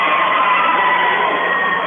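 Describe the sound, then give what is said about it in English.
Loud crowd noise at a Palisade High School basketball game: a steady, dense roar of cheering fans that holds constant from start to finish. “as it is quite a loud crowd here tonight at Palisade High School.”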